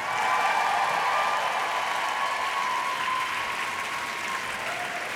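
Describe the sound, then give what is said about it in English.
Dense, sustained applause from a standing audience welcoming Secretary Hillary Rodham Clinton in Philadelphia, a steady wall of many hands clapping with no breaks and only a slight easing toward the end. “Secretary Clinton, you're back there, and you can't see this, but you're getting a standing ovation even before you've come out.”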